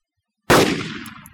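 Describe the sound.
A single gunshot fired at an alligator in a video game: an abrupt, loud blast out of silence that rings and decays over about a second.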